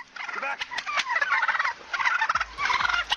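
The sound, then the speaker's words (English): Turkeys gobble in loud, rapid rattling warbles, with one long run of calls, a short pause, then another burst of gobbling. “Leave the turkeys alone, dude. Why are you up in their shit?”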